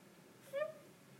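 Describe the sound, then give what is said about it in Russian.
A single short cat meow, brief and fairly faint, rising out of a quiet background for a fraction of a second. “Это моя кошка.”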